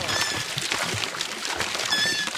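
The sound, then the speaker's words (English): Water gushes from a vertical pipe into an open cement tank, pumped by a children's playground seesaw, making a steady, dense rushing hiss throughout with no talk. “Their seesaw is actually a pump in disguise. As they rise and descend, water gushes from a vertical pipe into an open cement tank.”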